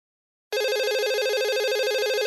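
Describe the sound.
A telephone rings for an incoming call: an electronic, warbling ring that starts abruptly after half a second of silence and holds steady and loud to the end, with no voices.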